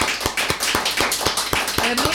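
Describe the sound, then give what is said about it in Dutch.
Rhythmic clapping from a concert audience applauding a performer: many loud, crisp claps in unison at a steady, brisk beat, with a voice faintly heard toward the end. “En ik wil jullie vragen om één keer voor Anke te klappen.”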